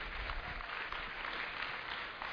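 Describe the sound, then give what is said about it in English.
Steady audience applause for children who have performed on stage at a church service, a brief, even wash of many clapping hands. “I really want to thank the kids up on stage today for what they did. You know, let's give them a round of applause.”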